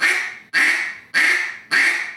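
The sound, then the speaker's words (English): A duck quack imitated by a caller: four evenly spaced, raspy, nasal quacks, each starting sharply and trailing off, sounding alone with nothing else behind them. “If you was to take a quack and just do a quack.”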